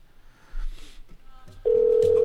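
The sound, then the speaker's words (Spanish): Ringing tone of an outgoing telephone call: after quieter rustling noise, one steady, mid-pitched electronic tone starts abruptly and holds to the end. “Ahí está timbrando.”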